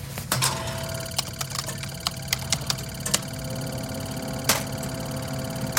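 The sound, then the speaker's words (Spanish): An old computer in a factory is switched back on, giving a steady low whirring hum broken by scattered sharp clicks and rattling mechanical ticks. “Ahora debo reiniciar los sistemas. Muy bien. Ahora solo falta encender nuevamente esta vieja computadora.”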